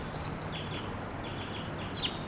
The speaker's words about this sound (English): This is a wild bird. Two of them, and they just took off.